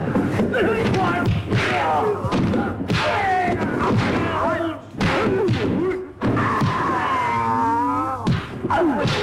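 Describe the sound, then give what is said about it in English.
Thuds and blows from a television martial arts fight scene, in which one fighter takes on a whole class of karate students. Loud thumps and strikes land in quick succession among shouts and yells, with voices throughout. “That's the sound of Green Hornet. That's Bruce Lee taking care of a whole class of karate students who obviously aren't up to his level.”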